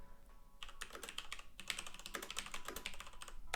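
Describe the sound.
Fingers type the word "business" on a computer keyboard in a rapid, uneven run of many light clicking keystrokes. The clicks are fairly faint and continue steadily with brief pauses, and no one speaks.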